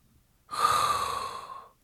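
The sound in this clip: A single long inhaled breath, breathy and hissing with a faint whistling tone, swelling quickly and fading out after about a second, alone in quiet.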